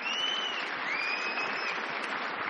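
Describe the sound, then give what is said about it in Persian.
An audience applauds after a performance at an award ceremony. The dense, even clapping stays steady throughout, and a couple of high whistles ring out over it. “بازی زیبای ایشون شایسته بهترین تشویق ها یک بار دیگه تشویق کنیم”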